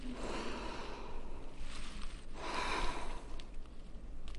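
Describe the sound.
A deep breath is taken before prayer at a church gathering. It comes as two soft, airy swells of breath noise over a steady low hiss.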